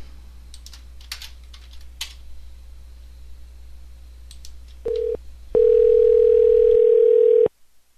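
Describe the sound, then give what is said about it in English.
Telephone dialing: a few soft key clicks over a low hum, then a short electronic beep and a long, steady tone of about two seconds that cuts off abruptly. “Let's try a different number. Different dialing from a different number.”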